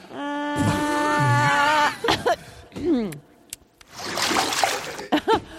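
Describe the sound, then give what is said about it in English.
Toilet water being gargled and spat back and forth between people: wet splattering bursts and sloshy spits mixed with groaning, throaty vocal sounds, loud and uneven. “They're spitting toilet water back and forth.”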